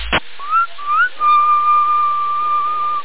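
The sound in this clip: Whistling heard over CB radio: after a short burst of noise at the start, a few brief whistled notes lead into one long, steady, high whistle with a narrow, radio-like tone.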